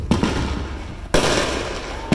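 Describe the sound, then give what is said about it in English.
Illegal backyard fireworks exploding in Oceanside: three sharp loud bangs at steady intervals, each followed by dense crackling that fills the gaps between them. “Illegal fireworks lighting up in people's backyards and causing a nuisance.”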